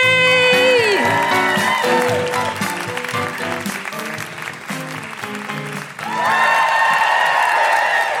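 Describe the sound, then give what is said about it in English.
An audience welcomes a comedian at a live comedy show with loud, sustained applause, cheering and high whoops. The noise dips briefly near the end, then swells again. “Please put your hands together and make incredible welcoming woo-hooing noises for the wonderful Celia AB!”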